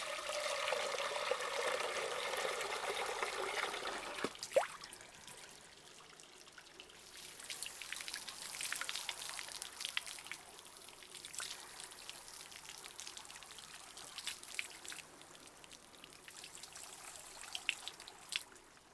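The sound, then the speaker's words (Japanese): Water trickles and splashes steadily while a man's neck and back are washed, a continuous wet rush with scattered drips that shifts in texture partway through. No talking. “では続いて首から背中を洗っていきますね。”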